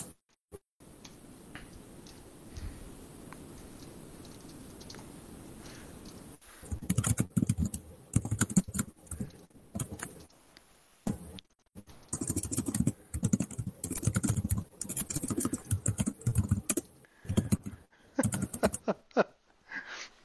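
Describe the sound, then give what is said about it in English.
Typing on a computer keyboard: after several seconds of low, steady background hiss, many rapid clicking keystrokes arrive in uneven bursts separated by short pauses, continuing to the end without speech. “I typed something, but it won't take it.”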